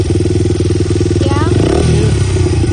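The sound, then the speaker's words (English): A dirt bike engine runs at a steady idle with a rapid, rumbling low pulse and a slight rattle, continuous throughout, with a voice heard briefly over it. “This your dirt bike?”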